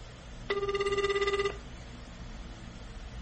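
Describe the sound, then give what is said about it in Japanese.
One trilling telephone ring sounds during an outgoing call. It is a rapid, warbling buzz lasting about a second, followed by quiet background hiss with no voices. “電話かけまーす。”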